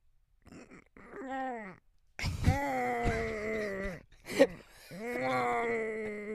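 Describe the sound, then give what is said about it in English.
A man's voice imitates an exhausted baby too tired to cry, making a few strained, wavering moans and groans. Short breaths and choked pauses separate the moans, which sound almost strangled. “you know the sound a baby makes when they're just so physically exhausted that they can no longer physically cry?”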